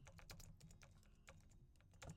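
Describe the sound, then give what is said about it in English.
Faint keyboard typing while notes are taken during a live-recorded teaching: many quick, irregular key clicks in a continuous patter, with a slightly louder flurry near the end. “And go ahead and type this down for me. Go ahead and type this down.”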